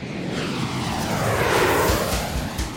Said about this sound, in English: The following day, we flew on his Challenger 601 straight to Baku Airport.